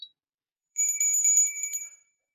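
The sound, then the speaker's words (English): A small high-pitched bell, brought out for a Christmas edition, rings in a rapid bright trill of many quick strikes for just over a second, with clear metallic overtones, after a tiny click and a silent pause. “I've been saying it for years that we should bring a bell onto this Christmas edition.”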